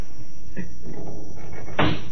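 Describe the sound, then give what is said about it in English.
A window being opened, with a brief knock and faint creaking, then a louder rough sliding rasp near the end, with no voices. “Open the window, will you? It's hot in here.”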